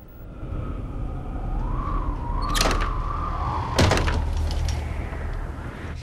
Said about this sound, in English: The bedroom window blows open.